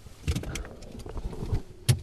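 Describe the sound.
Highway traffic passes a roadside road cut on US 400 near Augusta, Kansas. A low vehicle rumble runs throughout, broken by a few sharper bursts as cars go by.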